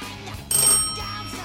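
A mobile phone rings with an old landline-style bell tone, one short bright ringing burst, fairly faint and heard alone.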